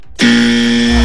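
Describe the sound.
Harsh buzzer from a radio guessing game, signalling a wrong answer: after a short quiet moment it starts abruptly and holds as one loud, steady, unbroken buzz to the end.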